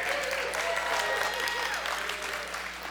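Applause from a church audience during a Sunday Advent service, a full, continuous wash of clapping that stays loud and even before easing off slightly toward the end.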